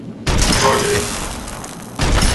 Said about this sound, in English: Oh, that took 2 pulse grenades.